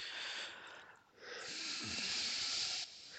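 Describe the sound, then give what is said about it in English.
A sharp intake of breath: a long, airy hiss of inhaling that dips briefly, then swells again and holds before cutting off, with no talk over it. “Sharp intake of breath.”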